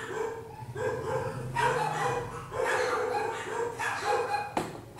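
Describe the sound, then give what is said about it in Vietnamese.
A dog barks over and over in a string of loud, rapid bursts. Some barks are sharp yips and some are fuller woofs, with short gaps between the bursts. “Chó cắn ma cái gì em?”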